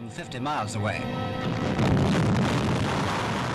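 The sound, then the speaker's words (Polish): Deep, roaring blast of an American hydrogen bomb test at Bikini Atoll, destroying demonstration material. A brief voice comes first, then a heavy continuous rumble builds and stays loud to the end. “Próba amerykańskiej broni wodorowej odbywa się na archipelagu Bikini. Ta broń niszczy wszystko to, co było tam zgromadzone jako materiał demonstracyjny.”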